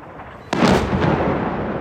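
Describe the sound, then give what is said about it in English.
Heavy shelling explodes in a city: one sudden, loud, booming blast cuts in, then a deep, rolling rumble lingers and stays loud to the end. “It's a very intensive shelling all around me.”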